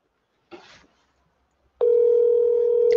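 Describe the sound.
A telephone line places a call. A short noisy burst comes first, then a pause, then a steady, sustained line tone that continues to the end.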